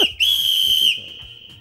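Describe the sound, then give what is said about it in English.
A whistle blown in one long, shrill, steady blast lasting under a second, with a fainter high tone lingering before and after it. “You take a whistle.”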